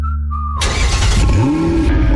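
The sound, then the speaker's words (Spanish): A car engine revs in a short radio sound effect: a steady electronic tone gives way to a loud burst of engine noise with a rising, climbing note. “Motores listos. Pisamos el acelerador”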